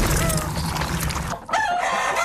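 Hens clucking and calling as they wake, a loud, dense and continuous stretch of fowl sounds with a brief dip partway through.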